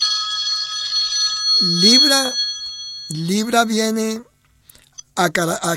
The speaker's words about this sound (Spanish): No puedo atender esta llamada porque estoy en la emisora